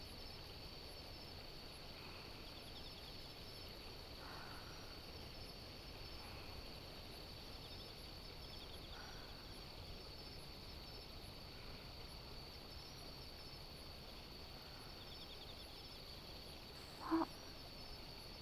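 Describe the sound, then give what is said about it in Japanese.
Faint, steady insect chirping in an autumn maple forest by a stream at night, a continuous high drone with a brief louder sound near the end. “お揃いのカップでゆっくりお茶を飲みながら、もみじと虫さんの鳴き声を楽しみましょ”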